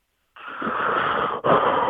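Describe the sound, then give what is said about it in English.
Heavy, wheezy breath from a caller on a phone line: a long rushing breath, then a brief break and a second, slightly louder breath. No talk is heard. “I like the extra breath there.”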